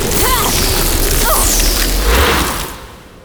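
Energy blast fired at a barrier: a loud, broad roaring burst with whooshing sweeps that holds steady for about two and a half seconds, then fades away.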